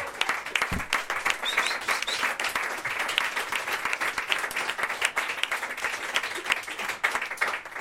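An audience at an open-mic night applauds a hip-hop performer with lively, continuous clapping that stays at a steady level throughout.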